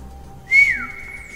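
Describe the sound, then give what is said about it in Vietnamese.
A person whistles through pursed lips: a single brief, high note that dips slightly in pitch as it fades, heard alone over faint background noise. “Y chúm miệng huýt sáo một tiếng”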